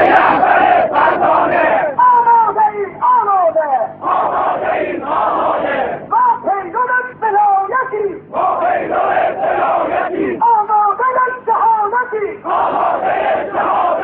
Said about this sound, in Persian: با این حال هزاران تن از طرفداران اعدام هاشم آقاجری با اعلام حمایت از آیت الله خامنه‌ای رهبر جمهوری اسلامی دست به تظاهرات زدند.